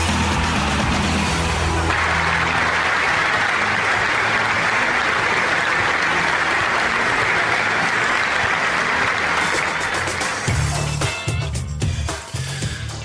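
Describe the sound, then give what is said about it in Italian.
Football supporters give sustained, dense applause, a loud continuous wash of clapping that runs steadily for over ten seconds before thinning and growing more uneven toward the end. “con un applauso che non è né per me né per voi, ma è quello che i tifosi di Pistoia hanno tributato a un grandissimo uomo del nostro sport”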